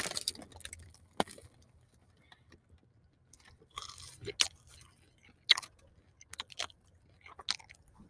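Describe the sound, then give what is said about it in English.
Close-miked biting and chewing of food, with sharp crisp crunches scattered among softer wet mastication in an irregular rhythm, fairly quiet and without talking. “here goes the ASMR bite”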